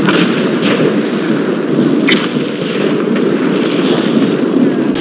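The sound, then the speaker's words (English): Thunderous roar of a Vanguard missile launch amid a huge cloud of flames: a loud, dense, continuous rushing blast that holds steady throughout, with a brief sharp crackle partway through. “The Vanguard missile is in the air. We see a tremendous cloud of flames.”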